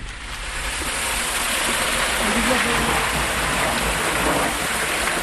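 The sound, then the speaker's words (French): Water rushes through an underground gallery toward a reservoir about 1 km away, moving only by the slope of the network. The sound is a steady, full roar that holds even throughout. “Donc c'est l'eau de la galerie qui vient alimenter un des réservoirs à peu près à 1 km de cette même galerie. Et l'eau coule uniquement grâce au dénivelé du réseau.”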